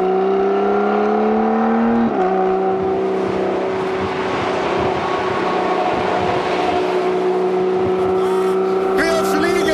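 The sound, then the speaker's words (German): A car engine revved high while driving in a convertible shifted with paddles, a loud, sustained droning roar with a brief pitch step early on, then steady high revs. “Wenn man ihn mit Pedals fährt, tendiert man natürlich ein bisschen höher zu drehen, ja, um den Sound richtig rauszuholen.”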